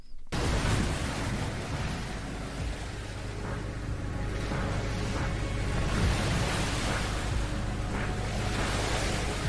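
Ocean waves in the video game What Below: a loud, steady rushing surf wash that starts abruptly and rolls on without a break, heard alone.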